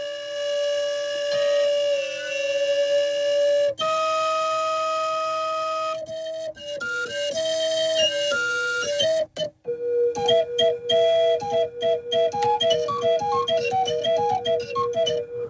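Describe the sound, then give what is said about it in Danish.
Whistles played from a keyboard while being tuned sound long, steady held tones that step between pitches, with brief breaks, then give way to a quick run of short staccato whistle notes. “jeg spiller på tastaturet her på keyboardet, svarer til de toner, der kommer ud af fløjterne. Men jeg prøver lige at stemme det en lille smule.”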